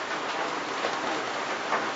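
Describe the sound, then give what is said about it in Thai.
Heavy rain pours in a steady, dense hiss that stays even in loudness throughout, with no breaks and no voices. “ตอนนี้ฝนตกขอนั่งเฉยๆไปสักพักก่อนเพราะว่าพูดไปเสียงมันจะฟังไม่ชัดเสียงฝนมันดัง”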